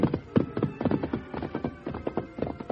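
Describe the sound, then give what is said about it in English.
Horse hooves clip-clop as a rider sets off up a ranch trail, many sharp, mid-pitched hoofbeats falling in a brisk, slightly uneven rhythm, heard alone without voices. “When Dan decided it was safe enough, he started after Jim. Come on, Victor.”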